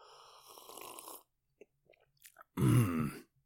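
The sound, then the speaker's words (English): A small sip of afternoon whiskey: a soft slurping draw, a few faint wet clicks, then a short, loud throaty sound after the swallow. “a small sip of whiskey, afternoon whiskey, as I'm recording. It is afternoon, and here is what my special guest sounds like.”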